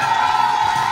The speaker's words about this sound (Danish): Fuld jubel, op og hoppe i stofan. Helt amok med kæmpe fest og fejring.